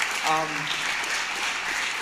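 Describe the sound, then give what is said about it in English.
Church audience applauding, an even rush of many hands clapping throughout, with a brief voice rising over it near the start. “Yeah, you can clap for that. Please do.”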